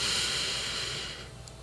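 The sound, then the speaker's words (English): A deep breath drawn in through the left nostril during a Reiki meditation, heard as a long, soft airy hiss that gradually fades. “And just feel and intend that the air is going in through your left nostril. And take a deep breath in.”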